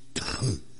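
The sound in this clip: A single short, raspy cough with a throat-clearing quality, abrupt and fairly faint, heard alone.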